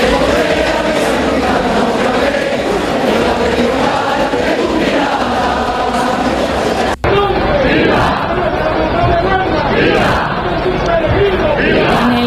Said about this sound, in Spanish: donde continúa hasta ahora la presentación de hermandades ante la matriz del monte con sonidos como estos